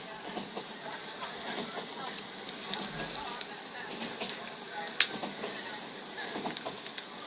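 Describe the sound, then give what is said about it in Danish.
A running train gives a steady, fairly quiet rushing noise that holds throughout, with many scattered sharp clicks and ticks over it. “Flyt nu din opmærksomhed hen på en enkelt lyd ad gangen. Først på lyden af tog, der kører.”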